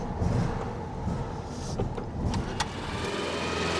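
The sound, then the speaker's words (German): Engine of a restored split-window VW Beetle, a barn find fitted with new electrics and extra indicators, driving up. A steady, loud low rumble runs throughout with a few brief clicks, and no talk. “Beim Brezelkäfer ging es viel schneller. Die Elektrik neu, zusätzliche Blinker dran und der Scheunenfund fährt wieder. So wie vor 50 Jahren. Und schon ist er da.”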